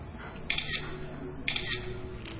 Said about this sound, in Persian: حالا شد عکسو بندازش. سه دو